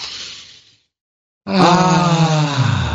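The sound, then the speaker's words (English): A deep breath taken to clear the mind: a breathy rush that fades away, then after a brief pause a loud, drawn-out voice rises and holds. “we love uplifting messages on a bumper sticker, so let's clear our mind here with a deep breath”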